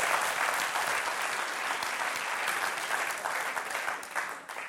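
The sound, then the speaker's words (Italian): Audience applause at a jazz lecture, a dense, fairly loud wash of clapping that holds steady and then tapers off toward the end. “Vi ringrazio dell'applauso”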